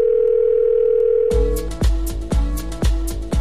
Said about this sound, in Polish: wykręca numer. W telefonicznym skrócie.